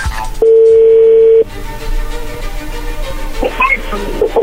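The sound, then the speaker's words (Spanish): A telephone call is placed and a single steady ring tone sounds on the line for about a second, then gives way to low line noise with a few faint clicks. “vamos a llamarle y vamos a ver qué sucede”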